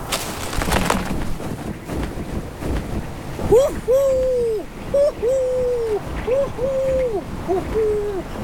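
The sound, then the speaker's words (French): Repeated calls from a male snowy owl hunting near its nest, a series of short and drawn-out mid-pitched tonal notes that fall at the ends and come in a steady rhythm after a few seconds of wind-like noise. “Le harfan reprend sa chasse. Il monte haut dans le ciel pour scruter le sol.”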